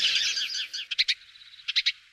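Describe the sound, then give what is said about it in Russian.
Budgerigar calls: a high, warbling chirp phrase gives way to two quick clusters of about three short, sharp chirps, joined by a thin, steady whistle. The calls are fairly faint and heard alone. “Волнистый попугайчик.”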